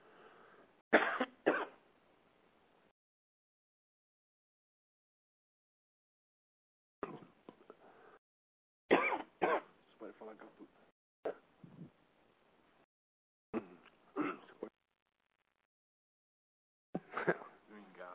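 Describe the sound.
A man coughs and clears his throat as if choking, several harsh, sharp bouts separated by long silent gaps, some mixed with short voiced sounds.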